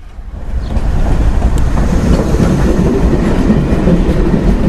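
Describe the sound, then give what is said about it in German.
Steady rumbling roar of a crowded, moving commuter train heard from inside a carriage, a dense low rattle that swells in the first second and then holds loud and unbroken, with no clear voices. “Es ist voll in der Bahn, die Hälfte der Fahrgäste steht.”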